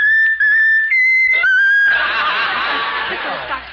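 A pet bird whistles a tune: a few clear, steady, high notes with short breaks between them, loud, then a rough, noisy chattering burst.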